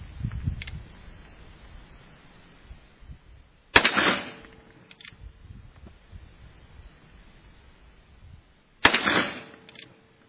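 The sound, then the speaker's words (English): Pistol and rifle gunshots at a shooting range: two sharp, loud reports several seconds apart, each with a brief ringing tail, over faint wind and rustling. “We will shoot the pistol first, and then we'll shoot the rifle.”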